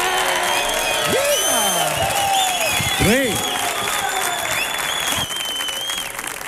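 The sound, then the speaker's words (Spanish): A theatre audience at Auditorio Cartuja cheers and applauds during a live comedy show. Dense, loud, steady clapping continues throughout, with shouted cheers and whoops rising above it. “mira lo que está disfrutando este público que suena de esta manera tan brutal”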